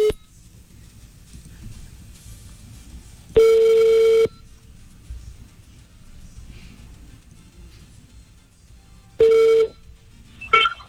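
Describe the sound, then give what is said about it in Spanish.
Telephone tones sound as a call is placed to a radio listener: two long steady single-pitch tones separated by quiet hiss, then a short beep at the very end, with no talk. “Bueno, marquemos a este oyente.”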